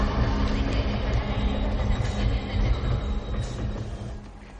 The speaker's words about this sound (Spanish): se coloca en el andén en el que está entrando un tren